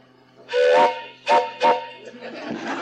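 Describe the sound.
A hand-blown train whistle gives three breathy, chord-like toots: a longer first blast, then two short ones in quick succession, before a softer airy hiss trails on to the end.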